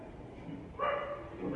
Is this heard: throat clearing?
no